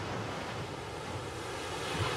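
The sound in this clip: Sea waves wash onto the shore in a continuous broad rushing roar, steady and fairly quiet, with no distinct breaks between swells and no voices.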